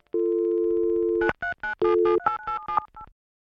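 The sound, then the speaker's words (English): Phone tones as a stored number is dialled: a steady dial tone holds for about a second, then a quick series of short keypad beeps follows in an uneven rhythm, clear and fairly loud with no voices. “Virat picks the phone out of Ravina's mouth carefully and dials the only number stored in the contact section.”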